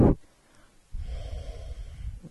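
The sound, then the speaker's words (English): A short breath is followed by one long, deep Ujjayi breath during a yoga pose, a steady, hushed, throaty rush of air heard on its own. “Deep Ujjayi breath.”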